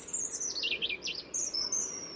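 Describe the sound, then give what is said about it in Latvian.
A European robin sings a high, thin phrase of quick wavering notes that slide down and back up. After a brief pause, a further thin, high sustained phrase follows against a quiet background. “man šķiet, ka sarkanrīklītes dziesma atšķirt no citām ir diezgan viegli, tikai to ir ļoti grūti aprakstīt.”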